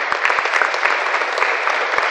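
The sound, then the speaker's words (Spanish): A church audience applauds a group of young people, a short burst of steady, dense clapping from many hands with a few sharper individual claps standing out. “Démosle un aplauso a estos jóvenes.”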